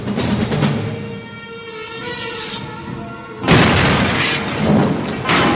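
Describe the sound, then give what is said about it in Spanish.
Heavy crash of a giant chess queen smashing a bishop piece during a life-size chess battle. A low rumbling boom gives way to a sudden loud shattering burst midway, and dense debris noise follows to the end. “La reina blanca destroza a un alfil.”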